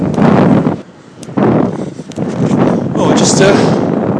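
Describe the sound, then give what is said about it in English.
Wind buffets the microphone while cycling quickly downhill, a loud, broad roar that briefly eases around the one- and two-second marks before surging back steadily. “doing a bit of downhill at the moment, which is nice, except of course I have to come off it again tomorrow, so it might be a bit windy because going quite quickly at the minute.”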